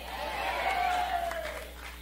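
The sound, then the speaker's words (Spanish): A church audience claps together in steady, dense applause that lasts about two seconds, with a sustained voice tone rising and falling above the clapping. “Si ese aplauso es para mí está bueno, pero si es para Dios tiene artritis.”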